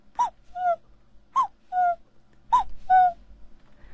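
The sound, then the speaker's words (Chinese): A voice imitates an older cuckoo calling: three two-note calls, each a clear, higher first note followed by a slightly lower second note, evenly spaced and alone. “比较老一点的，他说，对，声音都是不一样的”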